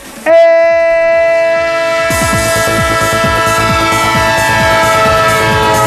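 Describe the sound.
A train sound effect used as a football results jingle: a loud, sustained multi-tone horn blast opens and carries on, and from about two seconds a rhythmic clatter of wheels on rail joints runs beneath it to the end.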